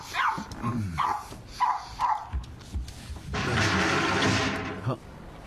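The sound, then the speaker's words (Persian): A dog barks a few times in quick succession, sharp mid-pitched yaps, followed by a longer stretch of rushing, hissing noise. “برای چی این سگ اینقدر واق میگونه؟”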